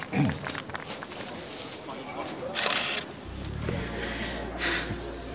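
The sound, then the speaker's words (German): A camera shutter clicks in two short, sharp bursts a couple of seconds apart over steady background noise and a low hum. “Darf ich ein Foto machen?”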